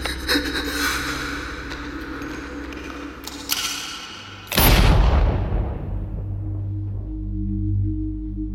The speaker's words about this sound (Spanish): El disparo me dejé caer como si esa bala hubiera atravesado mi cabeza.